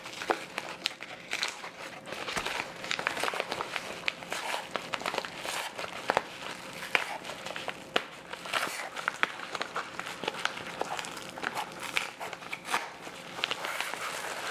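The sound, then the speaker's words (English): Tape and packaging crackle and crinkle as a taped shipping package holding a compact cane is opened. Dense, busy rustling runs throughout with many small snaps and crunches at an even level. “All right, let's get started opening this. They've taped it, which is really nice.”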